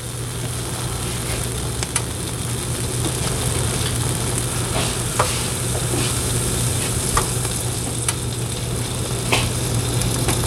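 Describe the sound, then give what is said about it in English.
Cheese sizzles as it melts on a heavy-plated electric grill. A steady, even frying hiss runs throughout, dotted with soft scattered crackles, under a low constant hum and without talk. “I can hear the cheese melting right now. Oh, I can hear melted cheese a mile away.”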